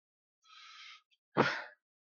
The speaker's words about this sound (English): You ever have to breathe like this because you're in over your head?